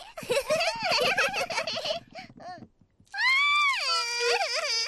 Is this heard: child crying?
yes